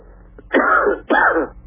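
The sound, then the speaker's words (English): Two loud, harsh coughs in quick succession from a person with a cold, each a rough, breathy burst, heard alone with no talk. “Don't worry, having a bad cough with the cold doesn't really help.”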